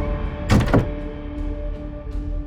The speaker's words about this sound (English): Alyssa strode into her room and shut the door quickly